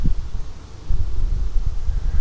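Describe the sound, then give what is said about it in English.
Wind blowing outdoors: a continuous, loud, low rumbling roar that surges and eases in gusts. No one talks. “Here comes the wind.”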